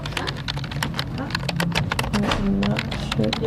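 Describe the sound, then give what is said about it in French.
Rapid typing on a computer keyboard as a caregiver writes up observations after giving care: many quick, irregular clicks in a steady stream, with a voice faintly underneath. “je dois aller vers l'ordinateur pour écrire mes observations”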